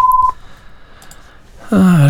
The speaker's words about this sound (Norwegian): Og der ringer det allerede igjen.